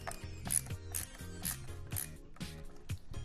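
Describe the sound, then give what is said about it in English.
Ratcheting clicks of a screw being tightened to finish an install, a faint, steady series of many mechanical clicks with no talk. “Insert and tighten the screw from step one to complete.”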